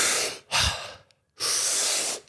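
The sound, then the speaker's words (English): Loud, deep, rushing breaths from a belly-and-chest breathing exercise demonstration with big inhales: a breath, a short forceful puff, a pause, then a long sustained breath. “So Wim Hof's a huge inhale. You fill up your stomach and your chest, and then you bring your breath back to a neutral place, and you repeat that 30 times.”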